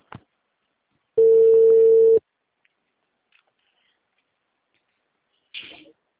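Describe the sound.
One steady, mid-pitched telephone ringing tone sounds for about a second during an outgoing call. Faint clicks come before it, and a brief noisy burst follows several seconds later.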